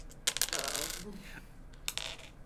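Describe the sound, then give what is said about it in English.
Four-sided dice rolled during a tabletop role-playing game clatter faintly in two short bursts of small, hard clicks and rattles, separated by a brief pause. “since you rolled a natural 20, roll me 2 D4 plus 2”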